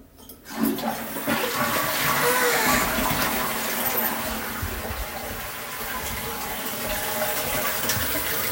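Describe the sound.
A toilet flush after wiping clean, opening with a sudden surge of rushing water that settles into a long, steady gush and refilling hiss.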